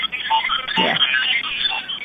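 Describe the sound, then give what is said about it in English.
A novelty ringtone sounds on a phone, a warbling, chattering electronic tune likened to little gremlins, thin and band-limited and heard alone for about two seconds. “Sorry, that's my cool new ring on my other phone. Oh, it's like little gremlins breaking in.”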